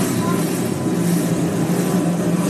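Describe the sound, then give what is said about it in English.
Stock car engines starting and revving at the Bass Pro Shops NRA Night Race, a NASCAR event: a dense, loud, steady roar of many engines droning together without pause. “Those engines are really strong. No better sound than that right there. Engines coming alive.”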